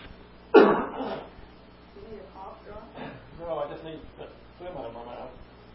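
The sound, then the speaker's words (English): A single loud, harsh cough bursts out from a man partway through a Bible reading, followed by quieter, muffled voiced sounds as he recovers. “I turned it off because the people listening, when they hear me hack into this, it's magnified.”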